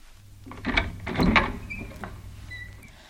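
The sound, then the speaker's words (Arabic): A door being opened, with a short cluster of wooden clunks and creaks in the first half that then settles into quiet. “افتحي الباب يا خديجة، فإني محمد.”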